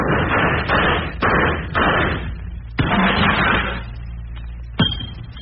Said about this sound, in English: I'm going to shoot the light out of the tower now. This is light number 473. Third one down from the left on the second string. Are you ready? Ready, aim, fire.